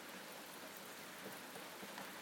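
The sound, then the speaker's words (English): Rain falling in a steady, even hiss with no distinct drops standing out. It stays faint and unbroken throughout, with no voices. “It's still coming down, look, it's rain now.”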